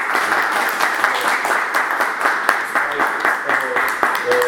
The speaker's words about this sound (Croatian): Ovaj pljesak nije, je pljesak u stvari za svih nas.